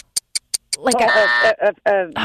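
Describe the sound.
A game show buzzer gives a short, steady electronic buzz while contestants and a host talk over and around it, after a few sharp clicks.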